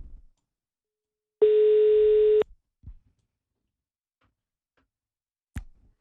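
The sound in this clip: A telephone tone sounds while a call is being placed, a single clear, steady, mid-pitched tone lasting about a second, set among a few faint, short clicks and long stretches of silence.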